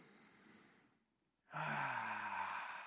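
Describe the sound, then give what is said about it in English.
An audience at a religious talk breathing together as a group: a soft airy inhale, a brief near-silent pause, then a louder, broad collective exhale with some voiced sighing that holds steady to the end. “Everybody just take a deep breath.”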